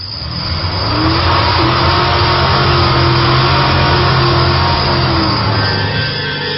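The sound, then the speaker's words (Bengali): A car's engine drones loudly and evenly as the car is driven off in a hurry. The sound swells over the first second, then holds a steady low rumble with a faint whine. “Driver please please গাড়ি start দেন, একটু তাড়াতাড়ি যাই। হ্যাঁ, গাড়িটা একটু তাড়াতাড়ি চালান।”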